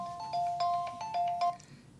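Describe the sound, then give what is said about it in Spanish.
A phone rings with an incoming call in a radio studio. The electronic ringtone plays a short phrase of bright, alternating high beeps, then repeats it once. It is fairly faint and has no talk over it. “Le hablan por teléfono.”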